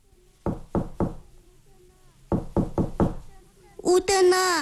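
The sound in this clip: Knocking on the wooden door of a wooden dwelling: three dull, solid knocks, a pause, then four more in an even rhythm, after which a voice begins speaking.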